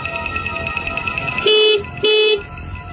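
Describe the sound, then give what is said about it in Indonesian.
Car horn honking as the driver sounds it: two short, loud, steady honks in quick succession, standing out above a low, constant background rumble. “Penasaran aku pun membunyikan klakson.”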